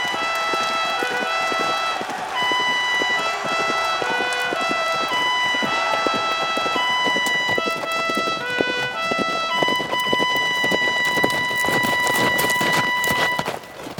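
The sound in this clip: Knights' horses arriving at a tournament, their hooves clip-clopping in many quick, steady beats over sustained melodic tones that continue throughout.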